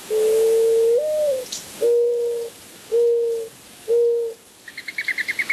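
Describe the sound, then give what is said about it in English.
A mourning dove in Arizona coos: one long note that lifts in the middle, then three shorter, steady, hollow hoots, followed by a quick run of faint, high twittering notes. “When I grew up in Arizona, I would hear the mourning dove in the morning on the way to school, cooing late in the afternoon.”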